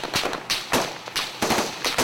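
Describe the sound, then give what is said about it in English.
Gunfire from many weapons opening fire at once in a jungle, a dense barrage of loud, sharp cracks overlapping in rapid irregular bursts with no voices. “Like 100 weapons open fire, and her words are drowned out.”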